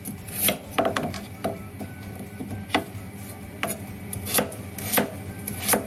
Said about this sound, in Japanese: そしてね、人参も、みじん切り